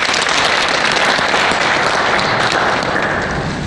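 A dance troupe's members applaud a newly introduced dancer, borrowed for an upcoming competition; loud, thick clapping from many hands fills the whole stretch at a constant level, with no talking over it.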